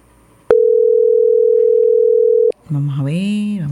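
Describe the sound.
A steady, single-pitched telephone dial tone sounds loudly for about two seconds while a call is being placed. It cuts off abruptly, and a voice follows.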